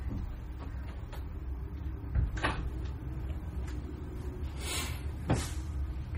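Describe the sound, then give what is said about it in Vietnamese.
A door being shut during a Buddhist teaching: faint knocks and a soft scraping slide, with a few thuds spread over several seconds above a low background murmur and no talk. “Tôi xin phép đóng cái cửa.”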